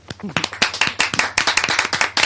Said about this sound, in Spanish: Oiga, aplaudan.